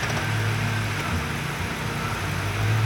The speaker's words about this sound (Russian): Затем она перевела взгляд обратно на руль и тронулась с места.